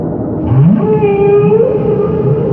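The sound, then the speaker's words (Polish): Whales calling: low, loud moaning tones that swoop upward and waver, with a sustained higher tone held above them, continuous over a deep rumbling background. “Wieloryby wołają o pomoc.”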